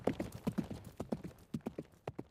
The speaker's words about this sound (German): Sogleich schwang er sich auf sein treues Pferd und galoppierte zum Drachenwald.